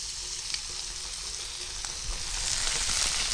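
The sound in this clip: Ketchup, three tablespoons, sizzles as it hits vegetables frying over medium heat for a spaghetti sauce: a steady, bright crackling hiss with no talk, growing slightly louder toward the end.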